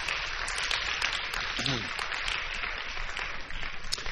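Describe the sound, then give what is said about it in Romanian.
Applause from a church conference audience: a steady, dense rush of clapping that lasts the whole clip, with a voice briefly rising over it. “Ridicați-vă în picioare să vedem. Hai să aplaudăm.”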